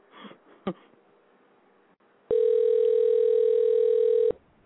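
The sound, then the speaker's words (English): A telephone dial tone as a call is placed: after a few brief faint sounds, one steady, loud buzzing tone holds for about two seconds, then cuts off abruptly. “Hopefully I've got this right. Yeah, it's dialing. Let's hope we get the right number.”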